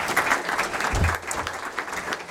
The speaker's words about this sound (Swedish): Men en applåd för Martin också.